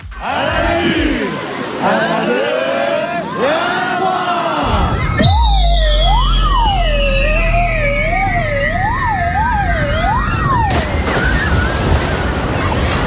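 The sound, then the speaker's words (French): A contestant is pushed down a slide into a pool at an outdoor game event. Crowd noise and a loud, wavering siren-like tone lead into a sudden burst of splashing water near the end. “c'est un joli plongeon”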